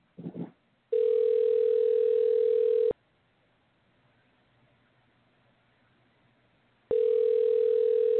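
An outgoing phone call rings out with a telephone ringback tone: after a brief click, a steady electronic tone lasts about two seconds, falls silent for several seconds, then sounds again.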